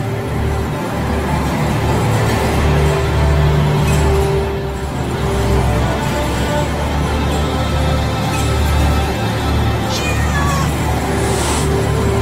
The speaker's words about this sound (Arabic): سمعت صوت القطة لكن المرة دي كان جاي من ناحية سرير عادي.